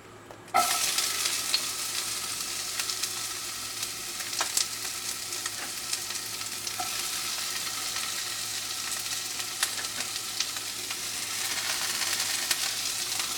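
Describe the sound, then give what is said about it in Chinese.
Chopped onions hit a little oil in a pan and start sizzling right away over medium heat, a steady crackling hiss with a few sharper pops as they are stirred. “好，再来呢，我们再加一点点的油，然后加入我们刚刚切好的洋葱。”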